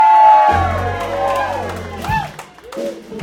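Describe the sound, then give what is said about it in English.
A crowd cheers and whoops for the bass player during a live band performance, with some clapping mixed in; a voice is heard over the music before the cheering swells. “Dude, they cheered for you. You didn't take a bow or anything. Do it again.”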